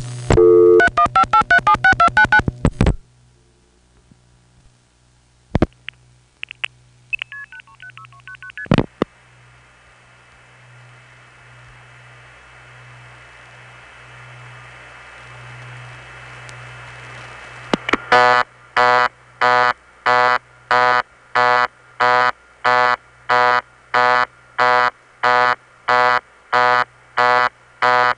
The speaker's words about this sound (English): Now here's the actual busy signal from that town.